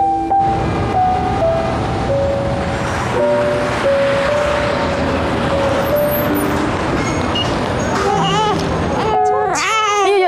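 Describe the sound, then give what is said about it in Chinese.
A baby bursts into a short, wavering cry near the end, after a long stretch of steady, noisy background sound. “怎么还哭了呢？你怎么带的孩子呀？”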